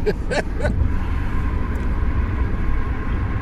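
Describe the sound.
Car tires rumble on the road next to a concrete wall. The low, steady roar fills the whole stretch without a break.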